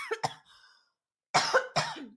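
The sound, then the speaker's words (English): Coughing to clear a frog in the throat comes as a pair of rough coughs, then a pause and two more, moderately loud with no talking. “I got a frog in my throat.”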